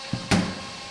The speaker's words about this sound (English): This is the shooting machine. Where we actually simulate football playing. He warms up the machine. It'll slam three balls against the steel plate at 50 kilometers an hour, 2,000 times each.